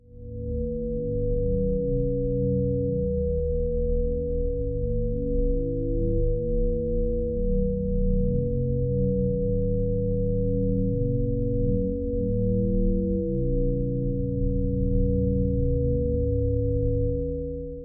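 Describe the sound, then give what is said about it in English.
Electronic tones from sound-art singing rocks that sound when a hand nears their seam: low, steady sine-like pitches layered and shifting slowly in overlapping steps, with faint clicks, continuous for the whole stretch without voices. “So I kind of sometimes call these my singing rocks. And the idea is that when a person approaches a rock and brings their hands near to the Songsmith seam, that it sings and reveals the sound.”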